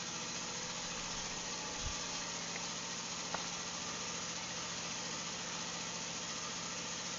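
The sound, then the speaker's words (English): A motor idling with a steady, unbroken drone and low rumble, holding an even level throughout, with a couple of faint brief knocks partway through. “my motor's running right now, so just trying to get this done”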